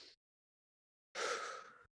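A deep breath taken while hovering over the ball before a golf swing: one long, airy breath lasting under a second, heard alone after silence.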